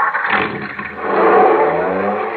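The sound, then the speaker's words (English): A car engine starts on battery power from an Autolite Stay Full battery, a loud rumbling roar that dips briefly then swells and holds steady. “Why, that's the dependable starting power of the Autolite Stay Full.”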